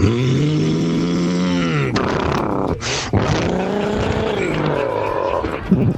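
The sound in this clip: A voice imitates a monster truck engine with a sustained, buzzing growl that revs continuously, breaks off briefly partway through, then resumes its rough, throaty roar to the end.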